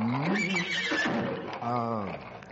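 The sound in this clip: A horse neighs loudly as its rider dismounts: two shrill whinnies, the second with a strongly quavering, wavering pitch, both loud and alone.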